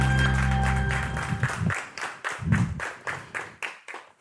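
Audience applause for the winners of a theatre award, a theatre production and its head, dramaturg and curator. A held tone fades at the start, then loud clapping swells in uneven, pulsing bursts that gradually thin out.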